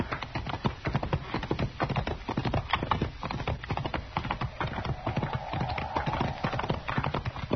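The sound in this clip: Horses' hooves clip-clop in a steady, quick rhythm as riders move at a gentle pace outdoors, the many hoofbeats fairly faint and continuous throughout.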